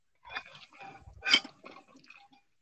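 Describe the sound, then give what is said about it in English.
Someone taking a drink, a few quiet wet sips and swallowing clicks with one louder gulp in the middle, brief and soft with no talk. “Let me wet the whistle here for a second.”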